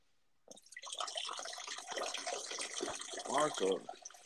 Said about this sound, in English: No, I got the fucking sink on. It's crazy. I'm trying to wash my hands.